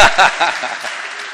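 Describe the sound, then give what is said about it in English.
A short burst of audience applause that starts strongly and fades away within about a second and a half. “You didn't get a round of applause for that one. Oh, you did now.”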